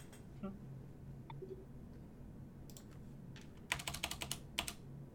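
Computer keyboard typing as notes are taken during a tabletop role-playing game: a few scattered faint keystrokes, then a quick, quiet burst of clicking taps near the end.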